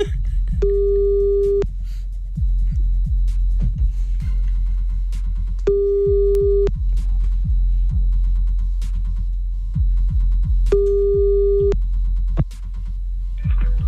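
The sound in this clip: Telephone ringback tone heard while redialing after the other party hung up: three steady mid-pitched beeps about five seconds apart, each lasting around a second, over a low rumbling background.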